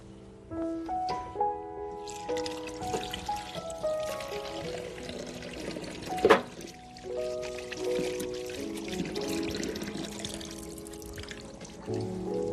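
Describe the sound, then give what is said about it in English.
Running water from a tap pours steadily as hands are washed before handling food, a continuous trickling splash with one brief louder splash, heard under a melodic tune. “But before I work with this food, I'll wash my hands.”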